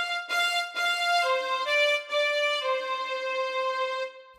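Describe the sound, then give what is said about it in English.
Violin played arco, with the bow drawn across the strings. A few sustained, rich notes flow into one another, each steady and bright, before the sound stops cleanly. “An arco is when you drag the bow across the strings, and it sounds like this.”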